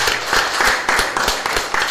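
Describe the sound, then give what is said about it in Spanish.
Applause from a church audience on the fourth floor of a building, a dense, loud wash of clapping with a steady pulsing rhythm throughout. “Excelente, excelente. Un aplauso.”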